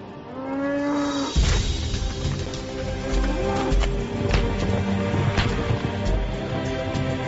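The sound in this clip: Cattle mooing from a herder's herd at the edge of the Horqin desert on the Inner Mongolia–Liaoning border; a long, low lowing call opens, followed by shuffling and clattering farmyard noise.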